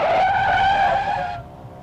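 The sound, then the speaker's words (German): Tires squeal as a car skids while a woman runs into it, a radio drama effect: one loud, sustained, shrill squeal lasting over a second that cuts off abruptly, leaving a brief fading rumble with no voices. “Sie ist direkt in den Wagen hineingelaufen. Ich glaube, sie hat ihn nicht einmal gesehen”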